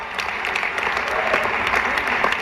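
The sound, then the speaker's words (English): Audience applause at a formal dinner event, a steady dense wash of clapping hands lasting the whole stretch, moderately loud and even, with no voices rising above it. “Can we have a round of applause for Chuck Schumer?”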